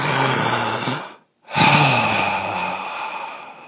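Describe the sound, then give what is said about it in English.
Two long breaths, or sighs, separated by a short silent pause. The second is louder and slowly fades away. “There's your hint. What did I just do? Breathe.”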